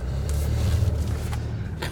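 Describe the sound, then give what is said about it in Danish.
Steady low engine and road rumble from a taxi pulling away from Hellerup station, an even, continuous drone that holds through the whole stretch with no talk over it. “Så nu øh, kører vi her fra Hellerup station.”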